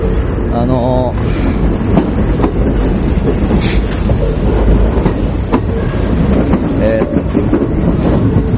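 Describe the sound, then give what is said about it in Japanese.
A train runs along a railway line beside the listener late at night, a steady, loud rumble and rattle that lasts the whole time with faint talk mixed in. “電車がね、うるさいんですよ。”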